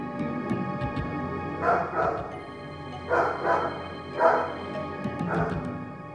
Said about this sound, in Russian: Едва мы спустились, как раздался собачий лай, а затем ужасный вопль, сопровождаемый жутким рычанием.